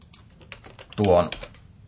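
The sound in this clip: Typing on a computer keyboard while entering text into a regex tool: a few soft, separate key clicks spread across the moment, with a brief louder voiced sound in the middle.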